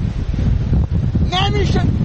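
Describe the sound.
Loud storm wind roars and buffets the microphone during a news reporter's field report in a storm, a steady low rumbling gust that stays strong through the whole stretch.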